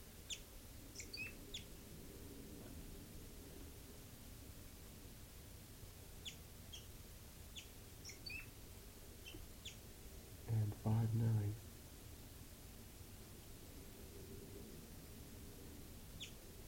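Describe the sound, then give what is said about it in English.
A bird call in an outdoor field recording: a short, low harmonic burst of about a second stands out over steady background hiss, while faint high chirps come and go throughout. “This is the call of bird 33.”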